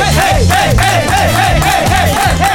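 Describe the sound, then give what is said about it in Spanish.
People shouting together in loud, rhythmic bursts. The group yells repeat in quick succession with a chant-like pulse and no pauses. “¿Qué está pasando? ¿Qué pasó acá? ¿Por qué hay gritos?”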